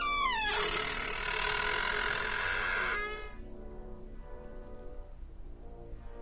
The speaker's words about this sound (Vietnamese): Cánh cửa kêu lên, nghe đến rợn cả người.